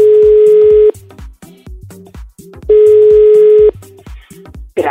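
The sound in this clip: Telephone ringing tone on a call being placed: two long, steady, low-pitched tones about two seconds apart, with softer pulsing sounds in the gaps between them.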